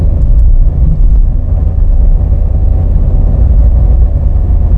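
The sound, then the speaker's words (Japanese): A car drives fast along a riverside road beside the Asano River, heading upstream. Its engine and road noise make a loud, steady, low rumble that barely changes, with no voices. “浅野川の川沿いを、上流方面へ 向かって、車を飛ばしております。”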